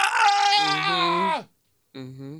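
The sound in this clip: A person yawns aloud in a long, drawn-out voiced yawn whose pitch sinks as it fades, followed by a brief silence and a shorter, softer voiced sound.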